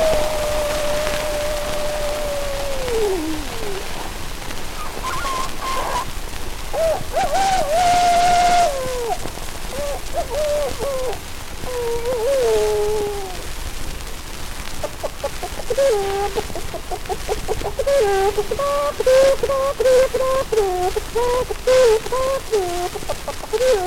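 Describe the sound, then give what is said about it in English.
Human voices imitate a rooster crowing and other farmyard fowl for a morning on a farm scene, with repeated warbling, crowing calls that rise and fall in pitch over a busy bed of clucks and chatter. “what the morning on a farm would sound like?”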